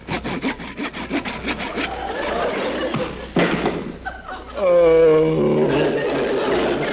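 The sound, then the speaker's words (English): A saw cuts through a wooden coffee table in rapid, rhythmic rasping strokes with a few thuds. Voices speak over the sawing in the second half. “You sawed the coffee table right in half.”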